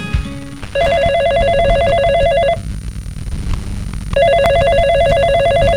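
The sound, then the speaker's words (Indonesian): A telephone rings for an incoming call in two bursts of rapid, trilling electronic ringing, separated by a short pause, over a steady background rumble. “Tiba-tiba, Jenny menelepon Eko.”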